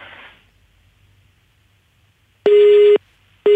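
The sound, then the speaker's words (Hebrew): A phone line tone sounds after a call drops: faint noise fades out, then after a quiet stretch comes one steady mid-pitched beep of about half a second, followed by a second identical beep that is cut off at the end. “התנתק לנו? אוקיי, תכף אנחנו ננסה לחדש את הקשר.”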